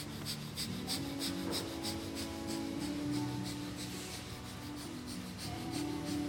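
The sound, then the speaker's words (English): Breath of fire, a rapid yogic breathing practice done with eyes closed: a fast, even train of short, forceful puffs of breath repeating steadily throughout, at a constant moderate level with no talking. “Eyes closed, look inward. Begin breath of fire.”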